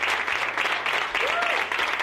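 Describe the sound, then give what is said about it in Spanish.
A group breaks into steady applause: thick, continuous hand clapping at an even level that keeps going through the whole moment without letting up. “Habrá que darles un aplauso, ¿no?”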